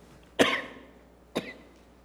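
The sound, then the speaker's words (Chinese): Two coughs from a person with a lingering, month-long cough: a sharp, louder first cough that trails off, then a shorter, lighter second cough about a second later, with quiet between. “对不起，其实我咳嗽有一个多月了，已经好了很多，但是还是有一点”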